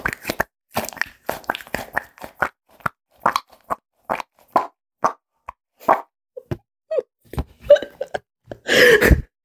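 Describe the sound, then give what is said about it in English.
A squishy sensory toy being squeezed over and over, giving many short, sharp wet plops and squelches in an irregular rhythm, finishing with a longer, louder squelch. “I bought this little toy that's like a sensory toy. It's meant to be relaxing and you squish it. And I've probably squished it too much and realised that it makes this sound.”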